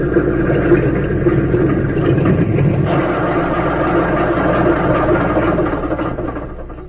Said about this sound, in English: Just before darkness fell, a plane circled the small field and came in for a landing. As its wheels touched the ground, two men ran to meet it.